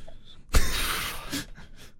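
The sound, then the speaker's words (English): A sharp inhale drawn right into a microphone bursts in suddenly as a loud breathy rush lasting about a second, followed by softer breath noise. “I didn't mean to like inhale my mic then, so apologies for that.”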